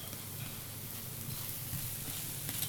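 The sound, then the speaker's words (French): Salted butter sizzles on a galette spread on a crêpe griddle, a steady, even crackling hiss with faint ticking throughout. “Donc là, j'ai étalé la pâte sur la crêpière. On beurre, parce qu'il y a toujours du beurre. Beurre, donc demi-sel. Sur la galette.”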